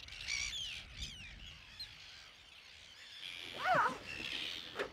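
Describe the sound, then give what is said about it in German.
Arctic terns call from a coastal breeding colony: harsh, scratchy cries come in scattered bursts. They grow louder and more insistent toward the end over a soft background hiss. “Wir gehen jetzt durch die Brutkolonie von den Küstenseeschwalben.”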